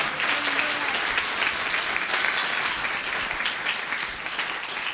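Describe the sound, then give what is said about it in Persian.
Audience applause in honour of a group member at a talk: steady, dense clapping that holds at an even level for several seconds. “یه دست به افتخارش بزنیم”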